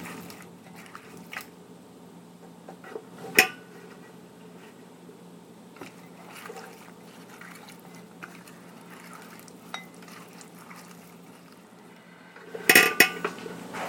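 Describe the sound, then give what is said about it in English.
Potato chips being tossed in a tablespoon of vegetable oil in a bowl: soft, faint squishing under mostly quiet, broken by two sharp clinks of a utensil against the bowl. “And some vegetable oil. All right, I'm putting the chips in the oil now.”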